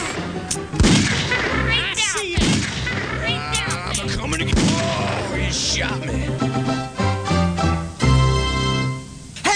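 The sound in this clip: Gunshots crack during a Wild West video game shootout at a robbery; several loud, sharp shots and booms punctuate the scene, with game characters talking between and over them.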